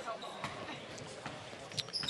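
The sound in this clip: A basketball is dribbled on the court during a high school girls' game at Vassar High School, producing a few faint, quick bounces beneath ongoing talk and crowd noise.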